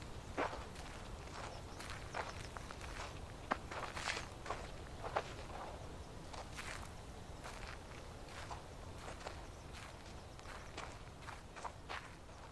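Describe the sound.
Footsteps of people walking, a long, steady run of many crisp steps over a constant hiss, with no voices.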